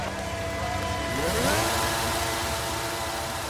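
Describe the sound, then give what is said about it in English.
Car engine driving into the first corner at Silverstone circuit, a loud, steady mid-pitched drone whose pitch climbs briefly in the middle before settling again. “All right, so we're going into the first corner at Silverstone.”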